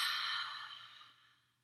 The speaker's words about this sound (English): So everybody take a deep inhale through the nose and then open the mouth and whisper a sound.